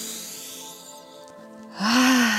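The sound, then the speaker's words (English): A person takes a deep breath, with a soft, steady airflow that swells into a louder, breathy rush near the end. No one speaks. “So I'm gonna like take a deep breath”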